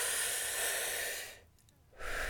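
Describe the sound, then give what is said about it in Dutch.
Slow inhalation during breathing practice for diving: a steady, breathy hiss holds for over a second, drops into a brief silence, then the airflow resumes at a similar level. “Je moet bijvoorbeeld 3 seconden inademen”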